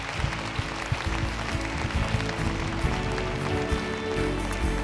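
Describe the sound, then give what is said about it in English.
A church audience claps to welcome new members into the faith, many hands beating in a dense, steady, loud patter that carries on without a break. “Hey, can we put our hands together and welcome some people into God's family today?”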